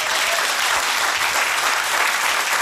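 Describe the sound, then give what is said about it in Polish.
Applause from a concert audience for the band Pospieszalscy on stage: a thick, even wash of many hands clapping, loud and unbroken from start to finish. “Jeszcze raz wielkie brawa, pospieszalscy.”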